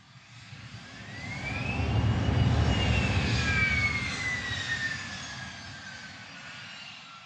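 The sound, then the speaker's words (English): An airplane taking off: a broad engine roar swells over the first two seconds, peaks, then eases off slowly, with high whining tones sliding downward across the rumble. “It's the takeoff.”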